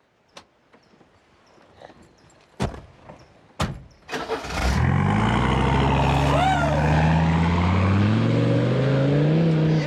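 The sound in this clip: A car engine starts and the car drives off: a few sharp clicks and thumps come first, then the engine catches with a loud roar and settles into a steady drone that rises gradually in pitch as the car pulls away.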